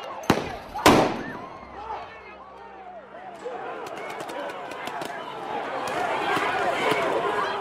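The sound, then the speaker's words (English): A sting ball grenade thrown by a police SWAT team into a crowd bursts with two sharp, loud blasts in quick succession, followed by sustained crowd noise with people talking and shouting. “A member of the park police SWAT team throws a sting ball grenade into the crowd. The devices are designed to explode, firing rubber balls in a radius of up to 50 feet.”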